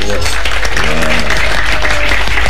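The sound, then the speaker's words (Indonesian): Loud applause from the audience at an evening singing contest in Blitar, East Java, a thick sustained roar of clapping with a voice and tones sounding over it. “Ya, bisa tepuk tangan sebera sampean. Tepuk tangan para penonton.”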